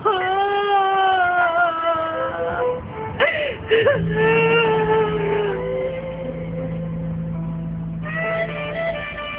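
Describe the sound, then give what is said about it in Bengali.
A woman cries loudly in long, drawn-out wails whose pitch wavers and breaks. Sobbing gasps cut into the crying partway through, and then the weeping goes on steadily. “গলা ফাটিয়ে কান্না শুরু করে দিল জাহানারা।”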